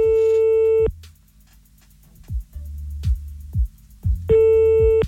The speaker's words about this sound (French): Oui, je m'excuse, on a été coupé.